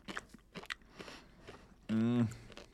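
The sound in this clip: Someone chews crunchy dry flakes sprinkled into the mouth like fish food, producing a few faint, crisp crunches, then a brief voiced hum and a few more crunches.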